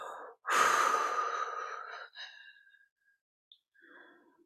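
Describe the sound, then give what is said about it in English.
A deep breath drawn in and then released during a guided breathing meditation, the exhale a long, loud, breathy sigh that gradually fades, followed by a few faint, soft breath sounds. “nice deep breath. I want you to pull it in and allow yourself to expand with that sacred wind of the breath. And then really let it go.”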